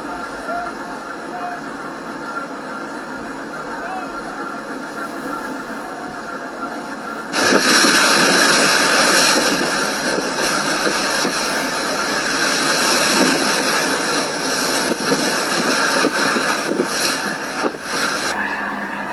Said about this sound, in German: Das ist ein Schnellboot mit Maskierten, was wohl irgendwie mit der griechischen Küstenwache zusammenhängt, was die Menschen attackiert.